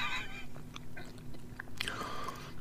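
Faint biting and chewing of green bean casserole, with a few soft, crunchy mouth sounds and moist chewing noises at low level, without talk.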